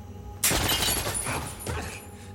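Gunfire erupts in a warehouse among stacked laundry crates, a loud sudden burst followed by a dense, continuous rattle of shots that stays harsh and noisy to the end.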